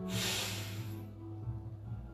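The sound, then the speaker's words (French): A slow inhalation through the nose during a guided breathing exercise, a soft airy hiss that swells and then fades after about a second, over a steady low droning tone. “Inspire avec le nez. Et tu souffles avec la bouche. Ferme bien les yeux. Inspire.”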